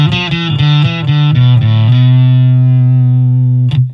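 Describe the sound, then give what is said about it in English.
Heavily distorted electric guitar through a Tech21 Fly Rig 5 with the Plexi drive turned fully up: a loud run of quick, rhythmic chugged notes, then a long sustained note with buzzy, saturated overtones, ending on a short fresh pick attack. “I'm going to turn up the drive on the Plexi the whole way.”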